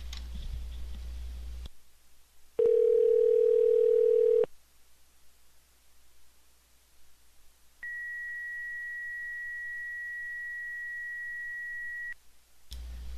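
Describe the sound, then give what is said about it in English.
Beeping tones from a phone call that fails to connect: a steady lower tone of about two seconds, then after a quiet gap a higher, thinner tone held for roughly four seconds. “It still said calling during that beeping, so I don't know what's happening.”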